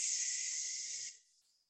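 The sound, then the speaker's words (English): A single breath pushed out through the mouth during pranayama breathing practice makes a steady, airy hiss that holds for about a second, then drops off and trails away softly. “Come forward, breathe out through the mouth.”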